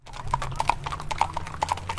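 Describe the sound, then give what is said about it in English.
Horses' hooves clip-clopping along Henderson Street as the animals head from their farm toward a lake shore: many crisp, irregular hoof strikes in a steady walking rhythm over a low continuous rumble. “There are horses on Henderson Street. They're headed from their farm, right by the Rainier Beach Light Rail Station, down to the shore of Lake Washington.”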